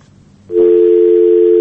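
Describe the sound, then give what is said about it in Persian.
A telephone line tone after a call is cut off: a loud, steady electronic hum that starts abruptly after a quiet moment and holds unbroken to the end. “تلفن دوست ما قطع شد”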